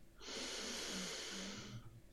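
A long, deep breath taken during a meditation. It is a loud, airy and steady rush that lasts nearly two seconds, with no talk over it.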